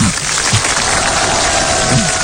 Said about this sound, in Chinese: 我想咱们掌声有请